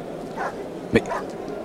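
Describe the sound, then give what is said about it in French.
A large dog barks once as it rushes through a crowd: one short, sharp bark stands out over faint background murmur. “Mais que vois-je? Un chien? Un énorme chien vient de se précipiter à travers la foule.”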